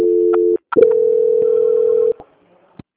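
A telephone call transfer tone: a steady mid-pitched tone, a brief gap, then a longer steady tone that cuts off, followed by a few faint clicks.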